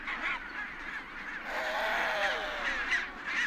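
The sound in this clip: Penguins call in a nesting colony at the start of the nesting season, a dense chorus of harsh, overlapping honking and cawing cries that continues without pause.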